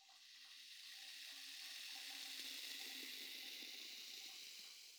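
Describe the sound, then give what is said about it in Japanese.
Carbonated foam fizzes on fingertips in a steady, soft crackling hiss that swells slightly and then settles, with no voices. “仕上げにもう一つ、したいことがあるのです。炭酸の泡を指先に出しまして、”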